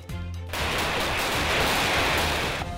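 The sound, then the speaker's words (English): Gunfire from military security forces shooting: a loud, dense burst of rapid shots runs continuously for over two seconds without a break. “bang, bang, McConnell security forces take aim”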